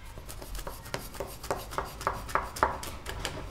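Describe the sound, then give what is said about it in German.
A knife slices baklava pastry dough with precise, light strokes, producing a quick series of faint, crisp cuts and scrapes on a surface. “Präzises Schneiden, das gelingt ihm mit leichter Hand.”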